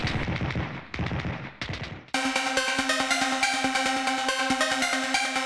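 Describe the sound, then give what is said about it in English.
Gunfire rings out alone. A few heavy separate blasts come first, then a sudden long burst of rapid automatic shots that rattles on without pause. “So fire shots blindly into the dark to increase suburban safety.”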